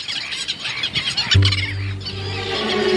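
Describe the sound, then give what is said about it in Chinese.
Black-billed gull mother calling with her two chicks in warm sunshine, continuous high, squealing cries over a steady low tone that enters partway through, with no talk. “和煦的阳光下，一只黑嘴鸥母亲正带着两个孩子玩耍。”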